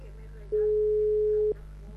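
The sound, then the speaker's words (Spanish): A single ring tone of an outgoing phone call: one steady, mid-pitched beep about a second long over a low constant hum. “Porque no le vuelvo a llamar. Voy a poner al aire para que no diga después que no le estoy llamando.”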